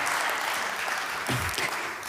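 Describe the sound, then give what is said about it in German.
Faint audience applause for a helper during a talk: soft, continuous clapping at a low level, with a brief swell of louder claps partway through. “Applaus für Daniel, das macht er wirklich klasse.”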